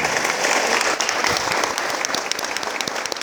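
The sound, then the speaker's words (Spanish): An audience claps in sustained, dense applause at an official gathering. The crackle of many hands stays loud and steady throughout, with no voices above it. “Lo recibe con fuerte aplauso.”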